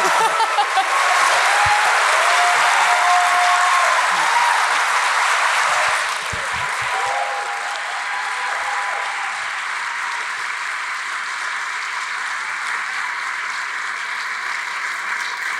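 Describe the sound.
An audience applauds a guest with sustained clapping that is loudest for the first several seconds, then settles into a slightly softer, steady ovation.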